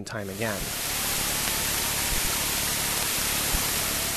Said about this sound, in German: Die Rohdaten von Kepler. Ins Akustische übertragen ein chaotisches Rauschen.